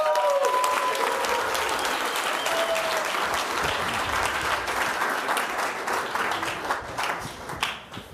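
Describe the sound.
An event audience applauds loudly to welcome Marc Andreessen and Ari Emanuel on stage, a dense sustained wash of clapping that thins into a few scattered claps at the end.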